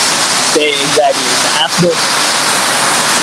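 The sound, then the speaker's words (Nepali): Steady, loud roar of heavy rain pouring down, dense and unbroken throughout, with faint voices briefly heard over it. “कत्रो पानी पर्यो त्यहाँ कत्रो आवाज आएको”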